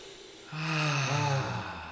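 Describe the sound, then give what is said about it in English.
A single deep breath, drawn in and let out as a long, voiced, sigh-like exhale lasting about a second and a half, taken during a guided breathing pause. “But let's take a deep breath of karma.”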